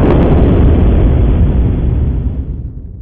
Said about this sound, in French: Pop Jordanov active le dispositif sous la banque et la fait exploser.